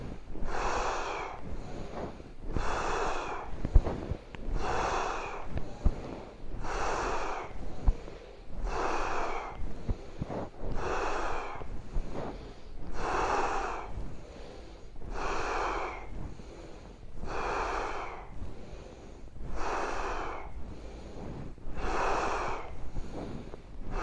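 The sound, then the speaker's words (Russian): A forceful breathing exercise in a kriya yoga class: strong, snorting breaths repeat about every two seconds, roughly a dozen in an even rhythm. They are loud, rough and airy, with no talking. “Дышим. Мощнее вдох.”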